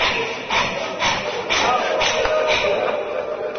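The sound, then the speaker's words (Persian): A voice imitates the fast, heavy panting of someone carrying a heavy load: breathy huffs repeat in a quick, steady rhythm of roughly twice per second, each a rushing, noisy exhale. “آدمی که بار سنگین داره تند را میره یا یه جایی فشار میبینه، شروع میکنه نفسش تند و تند بره بالا بیاد پایین.”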